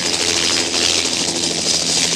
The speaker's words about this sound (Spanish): El helicóptero se eleva. Da medio giro.